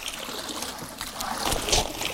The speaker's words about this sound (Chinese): 依家呢，我哋就捞啲苗出嚟。